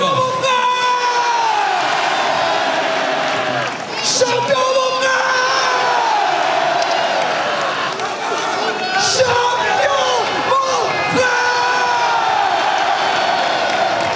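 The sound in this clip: A large crowd cheers and makes noise at a sports team's victory celebration, a loud, sustained roar packed with yells, whoops and shouts throughout.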